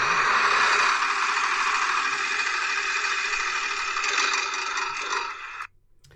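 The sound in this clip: A prize wheel spins to pick a discussion topic, giving a continuous rattling, clicking clatter that holds steady and then cuts off abruptly near the end.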